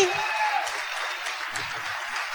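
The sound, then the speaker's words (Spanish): A convention audience applauds in a dense, steady wash of clapping that holds at an even level from start to finish. “¿Qué les ha parecido el evento? Vamos a ver, con aplausos.”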